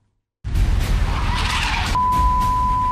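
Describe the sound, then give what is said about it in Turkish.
Harsh skidding and crash noise from two cars colliding at an intersection on Maltepe's coastal road in Istanbul, caught on a motorcyclist's helmet camera. It bursts in abruptly after a brief silence and roars on loudly, with a steady high tone joining midway. “İstanbul Maltepe'de ise iki otomobilin kavşakta çarpışması sonucu meydana gelen kazada 3 kişi yaralandı. Çarpışmanın ardından araçlardan biri alev alarak yandı ve o anlar bir motosiklet sürücüsünün kask kamerasına yansıdı.”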